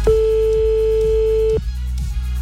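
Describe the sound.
A telephone call rings on the line as one long, steady, mid-pitched tone lasting about a second and a half. It cuts off abruptly, leaving a low hum behind.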